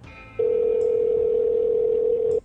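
A steady, unbroken telephone dial tone sounds after the caller hangs up. A faint, thin tone comes first, then the loud, even hum starts and holds for about two seconds before cutting off abruptly.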